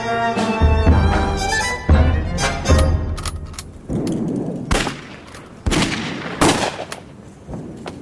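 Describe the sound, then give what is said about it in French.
Gunfire from a hotel roof in front of a military hotel on Saint Isaac's Square during street unrest: several loud, sharp cracks at irregular intervals over a continuous rumbling background. “Ça commence à canarder. Mais c'est pour ça que je suis venu. Je suis un écrivain socialiste américain. Provocateur. Ils ont tiré sur nous. Ça vient de là-haut. Sur le toit de l'hôtel.”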